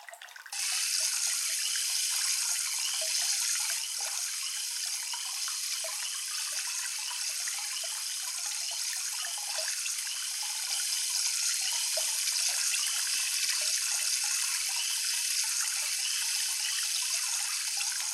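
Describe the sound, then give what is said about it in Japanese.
Warm water pours over a person's head during a hair wash, a steady, hissing splash that runs unbroken for the whole stretch at an even level, with no talking. “それでは頭を洗わせていただきますね。まずはお湯を頭へと。”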